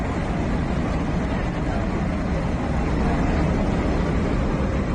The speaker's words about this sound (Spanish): Así sonaba el avión C-17 que despegaba por última vez desde el aeropuerto de Kabul